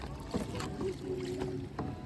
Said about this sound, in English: We head further out into the middle of the Guadalquivir River. Whilst it's wide, there isn't a strong current, and the calm, blue water shimmers in the early evening sun as we make our way down the river